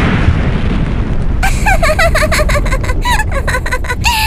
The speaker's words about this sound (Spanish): ¡Oh, no! ¡Es un peluche bomba!